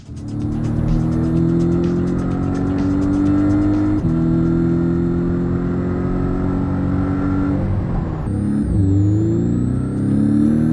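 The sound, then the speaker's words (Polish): The engine of a car with bucket seats and a well-insulated cabin runs steadily inside the car, a loud droning hum whose pitch shifts a few times. “Tak, nawet silnik fajnie gada w tym samochodzie”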